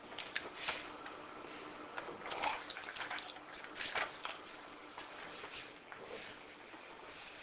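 A lecturer drawing a diagram of a localized turbulence patch on a board makes faint, scratchy rubbing strokes in irregular bursts, quiet and alone.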